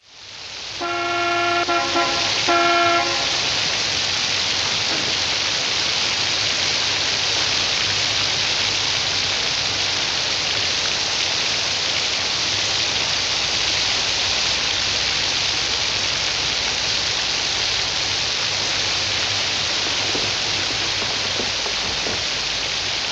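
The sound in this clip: Heavy rain on a stormy night at a roadside motel in a film scene: a loud, steady hiss runs throughout, with a brief harmonic horn-like tone sounding in the first few seconds.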